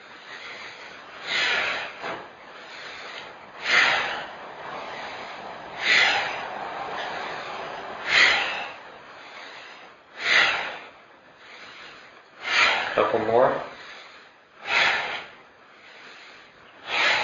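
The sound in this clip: Slow, deep breathing during a qigong breathing exercise: many airy, rushing breaths that swell and fade in a steady rhythm about every two seconds, with no talking.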